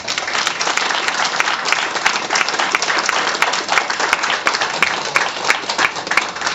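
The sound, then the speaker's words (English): Steady, dense audience applause welcomes a conference speaker before a talk on the police courts, a continuous loud wash of many hands clapping with no voices over it. “can we please put our hands together and give a big warm welcome for Drew”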